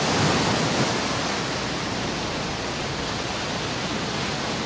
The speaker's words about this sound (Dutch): bij dit geluid denkt u natuurlijk aan zand, zon, aan de branding. Maar zo klinkt het vanaf nu ook in Hartje Rotterdam. Daar is in de gracht naast de markthal een kunstmatige golfsurfbaan aangelegd.